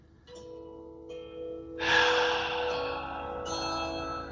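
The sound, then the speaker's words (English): A deep breath drawn in during a guided relaxation exercise: one long, airy inhale that swells in and holds over a soft, steady background tone. “Take another deep breath in, lower into your cavity.”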